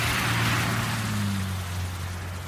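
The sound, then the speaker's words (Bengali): A car drives slowly past in the rain on a road toward the sea. A low engine hum sits under dense, hissing rainfall, and the whole sound eases slightly toward the end. “এই সময় দুটো headlight বৃষ্টির ফোঁটা কাটতে কাটতে ধীর গতিতে এগিয়ে আসছিল ও পাশের রাস্তা ধরে। গাড়িটা ওদের পাশ কাটিয়ে সমুদ্রের দিকে চলে গেল।”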